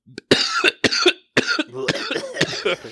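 A coughing fit: harsh coughs in rapid succession, several loud bursts separated by brief gaps and running without pause toward the end, with no talk.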